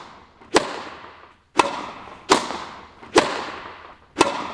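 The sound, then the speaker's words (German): A tennis ball struck by a racket during play, five sharp cracking hits at uneven intervals, each snapping loudly and then dying away quickly, with no voices. “Ja, ich tue es zwar nicht, aber es ist Tennis spielen. Genau, Tennis spielen. Es gab ein paar andere Sportarten, die gekommen sind als Lösung, aber es ist eindeutig Tennis spielen.”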